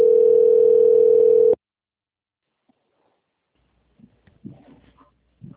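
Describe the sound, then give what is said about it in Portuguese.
A single steady telephone line tone sounds during a call transfer and lasts about a second and a half before cutting off abruptly. Silence follows, and then a voice speaks faintly on the line. “Vou transferir a ligação.”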